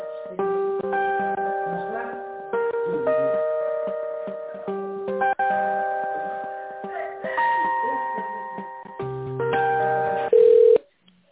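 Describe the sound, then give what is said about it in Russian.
An electronic tonal melody plays on a telephone line while a call is being transferred, steady thin beeping notes stepping through a repeating tune at moderate loudness, ending with a short, louder tone. “Минуточку, я переключу вас на тендерный отдел, потому что я вам ничем не помогу. Минуту.”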